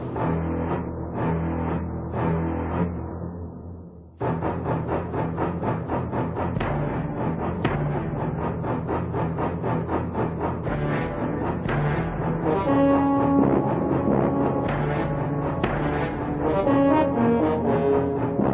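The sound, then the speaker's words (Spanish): Tense theme music from a shark film: heavy, low notes pulse, at first a few spaced strokes, then a fast, relentless ostinato. Brighter brass-like tones swell in over the final seconds, and the music stays loud throughout. “los sonidos marcados como la película Tiburón, que escuchamos ahora.”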